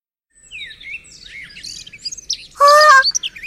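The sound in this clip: A red bird near a shrine chirps in a quick series of high, warbling tweets, then gives a louder, sustained harsh call and a few short chirps.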